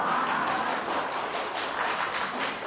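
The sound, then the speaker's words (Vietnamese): An audience applauds at a Buddhist dharma lecture, a dense, even wash of clapping that continues for under three seconds with a dull tone. “Các vị vỗ tay tôi không hiểu gì.”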